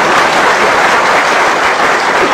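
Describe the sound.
Loud, dense applause from an audience fills the whole stretch, a steady, even roar of many hands with no voices standing out.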